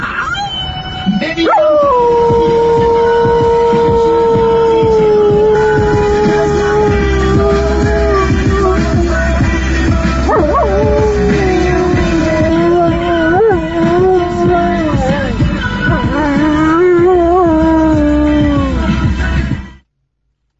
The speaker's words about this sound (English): That's just a dog howling.